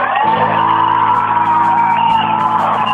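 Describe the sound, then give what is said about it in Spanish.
A large crowd at a feminist strike rally for 8 March in Granada shouts and cheers without a break, a dense, loud wall of many voices with whoops rising above it throughout. “no os puedo escuchar porque hay muchísimo ruido, pero aquí termina el comunicado y de nuevo los gritos.”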